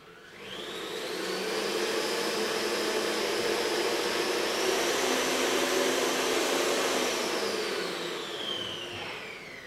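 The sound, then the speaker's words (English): An electric mixer whirs steadily as it beats eggs while melted butter is streamed in. The motor hum swells in over the first second or so, holds loud and even with a high whine, then eases slightly near the end. “you are going to continue mixing while you stream in the melted butter. And that will sort of help it grow in volume as well. So I'm going to do that.”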